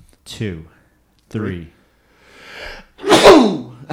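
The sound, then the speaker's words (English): A single loud sneeze bursts out after a couple of short vocal sounds, sharp and explosive, then trails off into a brief breathy tail. “I got to sneeze here in just a second.”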